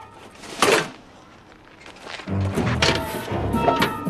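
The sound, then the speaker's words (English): A hollow thunk rings out as an engine door drops down onto someone's head. One sharp, loud knock comes near the start, followed later by a lower, rumbling clatter. “Then the door drops down onto his head.”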